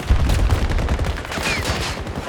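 Rapid automatic gunfire in a video game: loud, fast bursts of shots running continuously, with a brief high whistle partway through.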